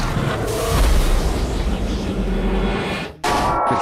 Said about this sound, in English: Foe Chaos Ozma used Chaos Blast.